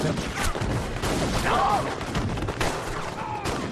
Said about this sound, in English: So, hail of gunfire. Everybody's lit on fire, being shot.